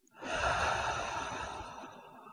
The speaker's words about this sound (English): Now, take a deep breath in through your nose and out through your mouth.